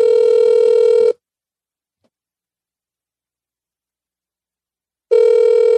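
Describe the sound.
A telephone ringback tone sounds during an outgoing voice call: two loud, buzzy rings separated by a long silence.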